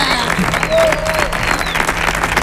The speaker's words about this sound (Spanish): Para el show, por favor, un aplauso.